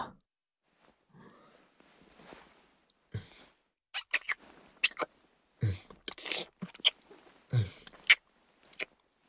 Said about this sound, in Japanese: こっちも舐めてやる。